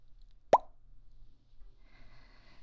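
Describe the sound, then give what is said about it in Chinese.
A single sharp pop as a red wine bottle is opened with a bottle opener. A short, bright burst stands out against near silence, followed by a faint rustle. “那我现在拿瓶起帮你打开。”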